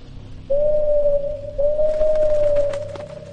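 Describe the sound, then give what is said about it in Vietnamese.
A large bird perched on a hut roof gives two long, steady, hooting calls at an even pitch, fairly loud and following one another closely, over a low background hum. “Hai Gòn giật mình khi con chim lớn đậu trên cái nóc chòi nãy giờ bỗng kêu lên liên tục rồi bay vút lên không trung”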